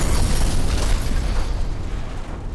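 Explosion sound effect: a loud, dense, rumbling roar with heavy low end that fills the whole stretch, easing only slightly toward the end.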